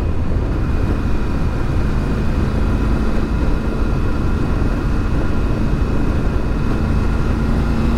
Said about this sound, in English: Did not take that corner all that well, but that's okay. We'll get it next time. Yeah, sorry, distracted by the moto riding.